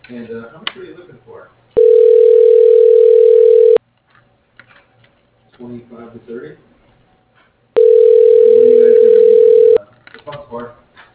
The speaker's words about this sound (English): I could transfer you to his voicemail.